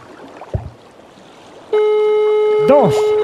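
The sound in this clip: A phone call ringing tone: after a quiet, noisy stretch with a faint knock, a loud steady electronic tone switches on and holds to the end, with a brief warbling sound partway through.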